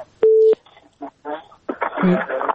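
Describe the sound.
A telephone tone sounds as a caller's line is picked up: one short, steady beep, followed by people talking.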